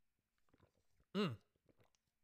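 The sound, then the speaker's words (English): A single loud gulp as someone takes a swig of chocolate milk, standing out sharply against faint, quiet mouth noises before and after. “Let me take a swig of my chocolate milk. Hold on.”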